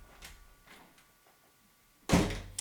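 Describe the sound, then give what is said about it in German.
A door being opened after a doorbell: after near quiet with a few faint soft taps, a sudden loud thud and rattle of the door sounds about two seconds in, then fades briefly. “würdest du mal kurz bitte die Tür aufmachen?”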